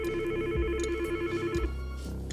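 A mobile phone rings with steady electronic tones over a low, regularly pulsing pattern, holding at an even level throughout.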